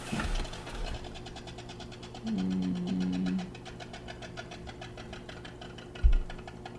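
A spin art paint spinner winds down, giving a steady whirring motor drone with a humming tone partway through and a soft knock near the end.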